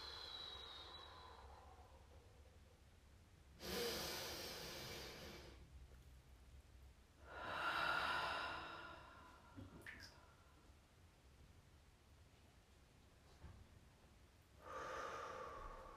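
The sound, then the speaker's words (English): Slow, deep breathing during a guided breathing exercise: a long airy inhale followed by a fuller, audible exhale, then another breath begins at the end. The breaths are soft and separated by quiet pauses, with no talking. “So let's take that big breath and then letting all the air out.”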